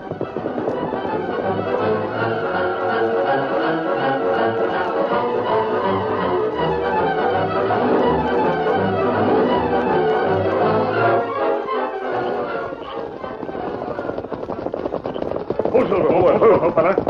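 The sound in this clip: Hooves clip-clop as horses ride off and trot along a trail, a steady run of hoofbeats mixed under a loud, dense bed of sustained music throughout.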